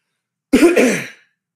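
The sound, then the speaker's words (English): A single throat clearing, a rasping two-part push of under a second that rises sharply, then fades out alone in silence. “Let me clear throat again.”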